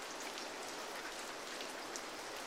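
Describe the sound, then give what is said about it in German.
Rain falling in a soft, even hiss of many tiny drops, faint and unbroken throughout, with no voices. “Es regnet.”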